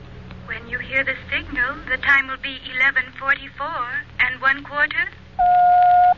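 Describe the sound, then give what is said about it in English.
A telephone call placed through an operator: people talk briefly, then a short, steady, loud telephone tone sounds alone. “Operator, get me Meridian 71212 and stay on the line.”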